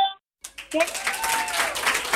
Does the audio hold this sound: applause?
yes